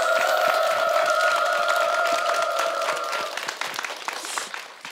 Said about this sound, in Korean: 계속 끊이지 않고 받아가면서 3집, 4집 계속 인더 시리즈 계속 낼 수 있도록 우리 큰 박수 환호로 응원해 드렸으면 좋겠습니다.